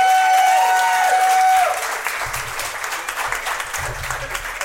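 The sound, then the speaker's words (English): Audience applause breaks out at a lively family gathering: steady, fairly loud clapping from many hands that continues throughout, with a short tonal whistle-like sound over the opening. “Give her a round of applause.”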